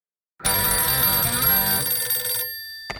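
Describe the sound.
A telephone bell rings for an incoming call on a phone-in line: one loud, bright, sustained ring lasting about two seconds, then it fades away, followed by a brief click at the very end.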